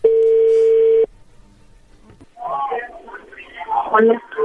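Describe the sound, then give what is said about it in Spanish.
A telephone call rings as it connects: one steady, sustained ring tone lasting about a second, then a brief quiet gap before voices start talking on the line. “a ver, ya entró la llamada.”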